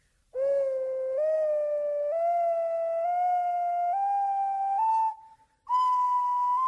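A beginner plays an ocarina, sounding a slow stepwise climb of sustained, pure whistling notes, each a little higher than the last, with a short break before a final higher note.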